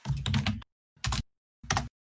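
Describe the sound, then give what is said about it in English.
Typing on a computer keyboard: three short, quiet bursts of rapid keystrokes separated by brief pauses. “Here, I'll type it in the screen.”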